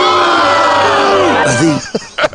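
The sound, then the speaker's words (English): Crowd booing during Super Bowl 51 week. A loud, massed wall of voices holds long, low sustained tones that slide downward midway, then breaks into a few short, ragged shouts near the end. “but are they booing me?”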